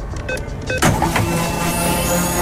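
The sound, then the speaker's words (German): Radio sound effect marking a fuel card being topped up: a quick run of short electronic blips, then a sharp whooshing burst that settles into a sustained whir with steady ringing tones to the end. “Immer dann, wenn wir die Karte bekanntlich aufladen. Klingt so.”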